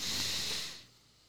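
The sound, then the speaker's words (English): A deep breath drawn in through the nose makes a soft, airy hiss that holds for about half a second and then fades away, faint and alone. “everybody just take a deep breath through your nose.”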